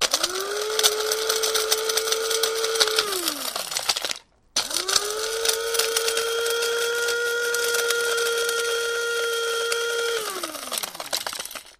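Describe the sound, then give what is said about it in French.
A small electric coffee grinder pulverises hard dried pomegranate rinds with a steady, high motor whine and gritty rattling. It runs in two bursts, a shorter one and then a longer one, each winding down in pitch as the motor stops. “Donc là, je vais broyer des pots de grenade. Mmh. Donc j'ai un petit moulin à café, oui, et je passe ça tout bêtement dans mon moulin à café.”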